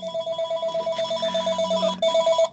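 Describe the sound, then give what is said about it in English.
A home telephone rings with a steady run of rapid, warbling electronic trill pulses that repeat evenly, break off briefly near the end, then resume for a final burst before stopping. “That is my home phone ringing.”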